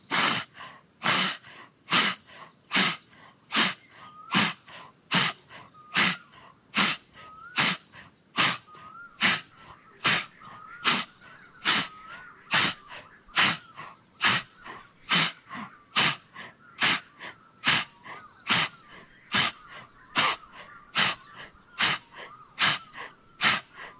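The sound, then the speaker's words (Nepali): Forceful breaths pushed out through a wide-open mouth during a meditation breathing exercise, repeated many times in an even, steady rhythm, each a short breathy rush of air, with no talk. “मुखैबाट अब म सास फेर्दैछु, पुरा सास फाल्दै,”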